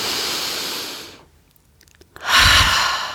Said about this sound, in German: Und wir ziehen die Schultern nach oben mit der Einatmung und lassen sie fallen mit der Ausatmung. Atme ein, zieh die Schultern hoch.